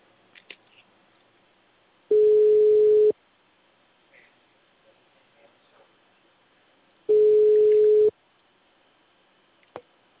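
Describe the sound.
Two steady ringback tones from a telephone test call being placed to a number, each lasting about a second and separated by several seconds of near silence with a few faint clicks.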